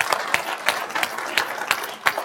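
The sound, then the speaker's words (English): Applause from an association audience at a meeting on short-term rental regulation: a moderately quiet crowd clapping, with a few louder, evenly spaced claps standing out from the patter. “We'll clap to that.”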